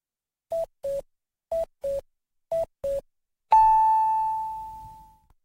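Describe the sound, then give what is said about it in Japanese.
A radio time signal marks 5 pm: six short, clean beeps in three evenly spaced pairs, followed by a long, slightly higher sustained tone that slowly fades out. “人と暮らしを支えるトータル管理、宮古衛生社が午後5時をお知らせします。”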